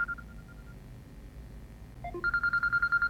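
Electronic telephone ringing with rapid, even warbling pulses after a few short tones, loud and steady with no talk over it.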